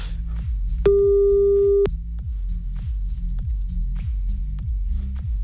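After a cut-off phone call, a single steady mid-pitched telephone tone lasts about a second. It sits over a continuous rhythmic music bed with a thumping low beat.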